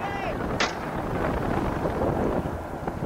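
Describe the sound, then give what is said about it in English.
A gun fired from a boat at sea: one sharp crack stands out briefly early on, nearly buried in a constant roaring rumble of wind. “And the captain grabbed the gun from him and opened fire.”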